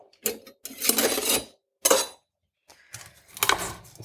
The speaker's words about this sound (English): So about 2 cloves of garlic. We're going to crush those. Let's see. Going to need a knife for that.